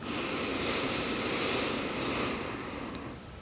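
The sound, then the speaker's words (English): A steady inhale through the nose with lips closed: a soft, airy hiss lasting about two seconds that fades away, with no talking. “Close your lips and inhale through your nose for a count of 4”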